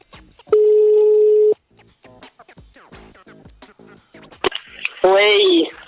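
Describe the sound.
A telephone call rings out in two long, loud tones about a second each, with people talking in the gap between them.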